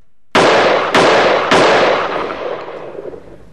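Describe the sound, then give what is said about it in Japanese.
Three sharp gunshot blasts from the sound effect for the gun of special investigation unit section chief Keiji Yamaoka. The evenly spaced, loud cracks follow one another quickly, and each leaves a long fading tail. “トップバッターを切るのはこの人の銃の音。特捜班本部係長山岡圭司の銃の音です。”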